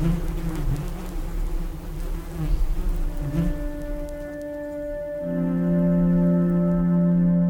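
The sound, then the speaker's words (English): A bee buzzes loudly right up against a microphone, a booming, droning hum with a steady pitch that turns into a fuller, stronger, more even tone in its final seconds. “with a microphone going right up to a bee, and suddenly you hear this kind of boom, you know, it's like a sort of rocket ship when it's that kind of loud.”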